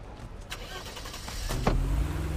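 A car engine starts: a brief cranking burst about two-thirds of the way in, then a steady low idle rumble to the end. Softer clunks and rustling come before it.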